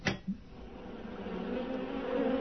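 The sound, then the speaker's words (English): Honeybees buzzing inside an indoor observation hive, with a couple of short knocks at the start followed by a steady low hum that slowly swells a little to the end. “Bees? Inside the house?”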